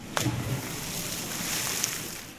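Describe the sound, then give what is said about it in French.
Water splash as someone slips off a float ring and falls in, a brief splashy burst at the start followed by continuous rushing, sloshing water noise that stays fairly even to the end. “Petit Poilu glisse de la bouée et tombe dans l'eau.”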